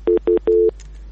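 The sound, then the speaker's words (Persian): Telephone tone after a call is cut off: two short beeps followed by a longer third beep, a steady mid-pitched double tone sounding alone. “متاسفانه تماس ما با برادر ما قطع شد، نمیفهم که مشکل چی بوده”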